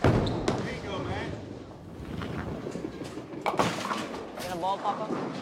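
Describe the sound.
A bowling ball rolls down the lane at a bowling alley and strikes the last standing pin, with low rumbling broken by a few sharp clattering impacts.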